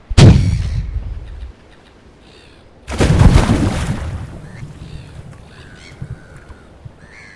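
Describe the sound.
Shotgun blasts on a boat: two loud, sharp booms, each followed by a rumbling decay. The second blast rings out longer, then fades into faint, scattered noises.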